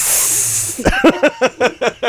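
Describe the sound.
A voice imitates a hissing sound: a steady breathy hiss lasts under a second, then a quick run of about seven short, rhythmic hissed bursts.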